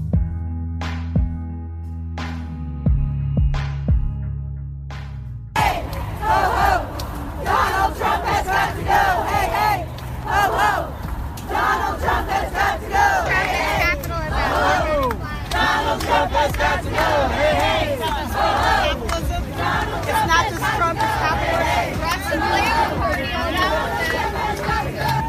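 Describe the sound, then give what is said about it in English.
A brief run of several clear musical notes gives way to a large crowd at New York City's Women's March, chanting and shouting in a loud, continuous roar of many voices with rhythmic bursts throughout. “calling in the middle of New York City's Women's March, as you can hear.”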